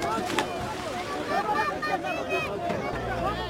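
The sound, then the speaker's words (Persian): Heavily loaded boat pulling away from the shore while a crowd rushes to board, with continuous splashing water noise mixed with many overlapping shouting voices. “قایق سرانجام با بار سنگین ساحل را ترک می کند.”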